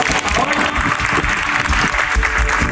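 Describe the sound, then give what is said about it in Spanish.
Audience applause at a corporate award ceremony, where a business group honors its board president: dense, steady clapping from a large crowd that stays loud and even throughout. “aplauso, por favor.”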